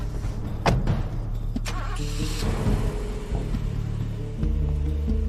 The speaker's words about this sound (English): drives the car around the curb